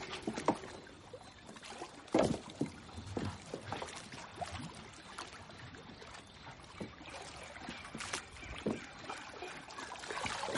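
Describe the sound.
Water sloshes and splashes as people wade in among floating logs, with irregular soft splashing throughout and a few sharper splashes standing out, one stronger near the start; no voices.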